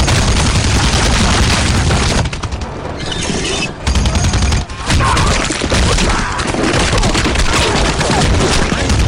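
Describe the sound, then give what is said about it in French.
A big rifle firing in an action film: loud, dense bursts of gunfire mixed with booming impacts and crashing debris, continuous and harsh throughout. “le sprouh qu'on entend, c'est du monde qui explose littéralement en recevant une balle du gros fusil de Rambo”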